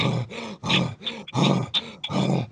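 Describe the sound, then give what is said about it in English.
A voice imitates short, rapid panting breaths: a series of rough, voiced huffs with a grunting, breathy rasp, each burst brief and separated by short gaps, fairly loud and alone. “that's when it triggers that part of the brain to do that kind of breathing, that short breath”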